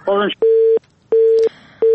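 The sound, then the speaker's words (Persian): Busy tone on a phone line after a caller from Herat is cut off: a steady, mid-pitched beep pulses on and off in an even rhythm, three bursts in all, the last cut short, after a brief voice fragment at the start. “متاسفانه تماس برادر ما از هرات قطع شد”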